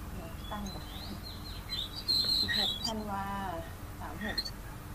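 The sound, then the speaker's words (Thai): Faint bird calls: short high chirps and a quick run of rising tweets, heard at low level over a soft background with voices underneath. “เสียงนกทางไหนอ่ะทางบ้าน อาจารย์มีนกเหรอ”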